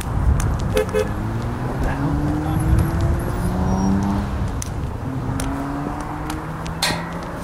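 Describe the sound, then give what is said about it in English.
Road traffic passes in a continuous dense rumble of engines and tyres, with short horn toots and faint metallic clinks cutting through now and then. “I can simply wait for the surge of traffic on my left and cross, which I have now done.”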